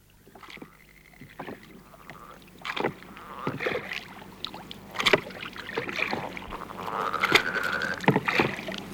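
A boat out on the water, with soft, irregular splashes and knocking strokes rising and falling over quiet sloshing, and no voices.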